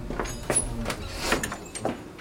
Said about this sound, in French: Fermez cette porte, mon père.